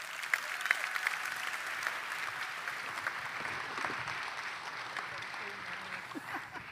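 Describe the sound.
A church audience claps in welcome as a man comes up to share his testimony, producing sustained, moderately loud applause with scattered sharper claps that stays steady across the whole stretch.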